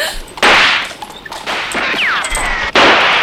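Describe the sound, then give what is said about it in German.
Gunshots exchanged during a bandit attack on a coach: a few loud, sharp bursts with hard attacks and ringing noisy tails, separated by brief quieter stretches. “Sie schießen zurück! Nicht schießen! Nicht schießen! Diese Lumpen, die haben geschossen!”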